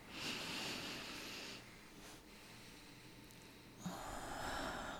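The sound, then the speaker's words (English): A slow deep breath taken during a guided relaxation moment: a soft, airy inhale, a quiet pause, then a breathy exhale, all faint. “Let's take a deep, deep breath.”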